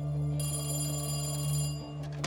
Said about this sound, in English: was busying himself at his desk when the phone rang.